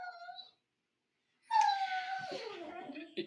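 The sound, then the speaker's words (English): A pet dog howls indoors: a brief whining tone, a pause, then a long wavering wail that drops lower near the end. “I have a dog going off here, and that's not my alarm clock. That's my dog.”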